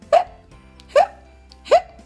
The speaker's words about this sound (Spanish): La ovejita se zampó la zanahoria tan rápido, que le entró hipo.